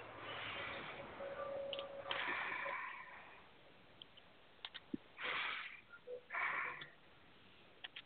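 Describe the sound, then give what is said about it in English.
A deep breath, faint and soft: breathy bursts of air in and out, with a few small ticks in the quiet gaps. “And a nice deep breath.”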